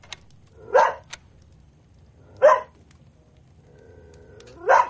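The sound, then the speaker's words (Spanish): A dog barks three times, each bark short, sharp and loud, spaced about two seconds apart over a faint low hum. “Observa al perro impávida.”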